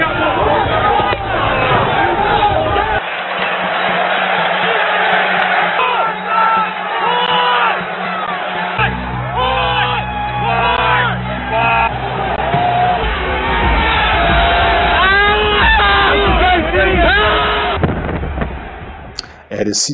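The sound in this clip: Rioting crowd shouting and yelling as demonstrators storm the Capitol, where a police officer is crushed in a doorway. Dense, loud, continuous mass of shouts, whoops and bellowing voices, sustained throughout.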